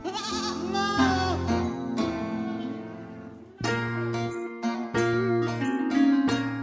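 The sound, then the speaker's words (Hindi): A goat bleats at dusk in an old lane, a few wavering, nasal calls rising and falling in pitch, with no talk over them. “एक बकरी के मिमियाने की आवाज”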